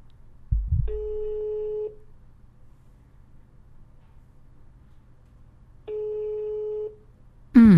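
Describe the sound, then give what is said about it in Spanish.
Ringback tone of a telephone ringing on an outgoing call: two steady, mid-pitched beeps of about a second each, several quiet seconds apart, with a short low knock before the first and a brief loud burst at the very end. “Vamos a ver si nos contesta primero. Está repicando.”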